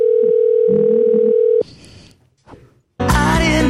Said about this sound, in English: We need some dialing music. Some music.